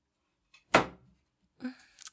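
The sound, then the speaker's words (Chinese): A door is locked: a sharp thunk, then a softer click and rattle, both quiet and brief. “我去把门锁上，不然等会老爸老妈突然回来了怎么办？”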